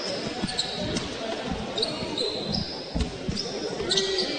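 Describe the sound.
A basketball is dribbled on the court during a game: soft, repeated thumps of the ball under steady crowd noise and murmur.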